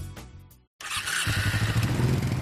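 A Suzuki motorcycle engine revs with a loud, throbbing roar that builds and pulses steadily. It follows a brief opening sound and a moment of silence.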